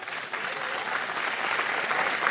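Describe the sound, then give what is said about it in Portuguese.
Dense applause from an audience during a sermon at a religious gathering, a steady wash of many hands clapping that holds strong and even throughout without a break. “Pode aplaudir.”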